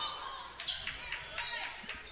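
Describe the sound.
A basketball is dribbled behind the back during a women's basketball game. Several sharp bounces land in an uneven rhythm, with people talking over them.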